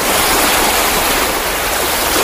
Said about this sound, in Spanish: Del 1 al 10, el oleaje del mar.